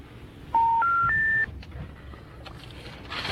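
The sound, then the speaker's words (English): Telephone keypad dialing tones: three steady beeps in quick succession, each a little higher than the one before, followed by quiet background noise. “So are you just dialing like the top number in the corner of every page?”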